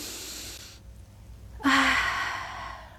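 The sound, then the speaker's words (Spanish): Deep inhalations during a relaxation breathing exercise, heard as airy breath sounds: a soft one, a short pause, then a louder, fuller gasp-like intake that slowly fades. “inhale profundamente. Inhalar profundamente.”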